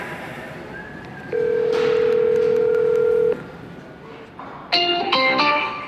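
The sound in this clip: A telephone call being placed: a steady, even electronic tone holds for about two seconds, then after a quiet pause a cluster of short, bright keypad-style beeps sounds at the end.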